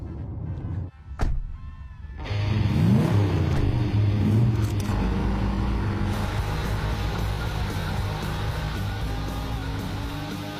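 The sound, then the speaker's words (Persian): A taxi car being driven: after a sharp knock near the start, the engine rumble rises in a few quick climbing sweeps as it accelerates, then settles into a steady, loud drone. “نمیتونه تاکسی منو برونه، اون گواهینامه تاکسی نداره. نه ترس، از جاده بیرون نمیره. نمیبریم، حالا یکم اجازه بده اون برونه.”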